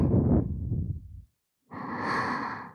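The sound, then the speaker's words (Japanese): Deep breathing in and out during a calming exercise: one long, noisy breath, a short silence, then a second, brighter breath. Both are fairly loud and stand alone with no talk. “深呼吸をして呼吸を整えましょうか。はい、吸って吐いて”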